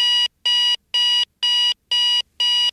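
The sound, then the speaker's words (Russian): An alarm clock rings in a bedroom with six evenly spaced bursts of high, bright electronic beeping. Each burst is loud and steady, with short silent gaps between them. “Спальня. Звонит будильник.”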